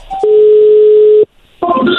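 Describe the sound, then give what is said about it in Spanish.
A telephone dial tone as a call is placed: a loud, steady tone holds for about a second, cuts to a brief silence, then a burst of mixed tones follows. “Vamos a llamarle a esta mujer y a ver qué sucede, ¿ok?”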